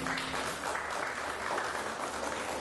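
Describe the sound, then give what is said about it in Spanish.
Applause from a church audience during a Spanish-language worship service: a short, dense patter of clapping, fairly soft and steady throughout. “Denle un fuerte aplauso al Señor.”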